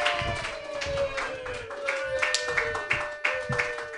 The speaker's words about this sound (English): Put your hands together for your first comedian, everybody.